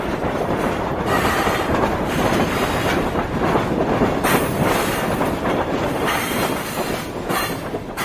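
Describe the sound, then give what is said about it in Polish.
A train passes in a loud, unbroken roar of rattling wheels and clattering railcars, with a high wheel squeal running through the steady noise. “Pociąg przejechał, zniknął.”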